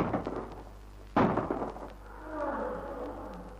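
A single gunshot fired to scare off a lion near a camp fire: one abrupt, fairly faint bang with a short rumbling tail, followed by a low murmur.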